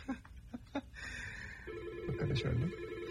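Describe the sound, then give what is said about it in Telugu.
A telephone rings with an incoming call: a steady electronic ringing tone rises partway through, sounding alongside voices and other brief sounds. “ఎవరో call చేస్తున్నారు.”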